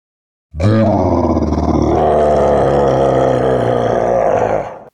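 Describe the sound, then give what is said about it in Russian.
A deafening roar from a tarasque monster: one sustained, loud, harsh bellow lasting about four seconds, rough and growling with a deep rumbling body, cutting off abruptly at the end. “Оглушительный рёв Тараска резал уши. Он точно расценивал меня как врага.”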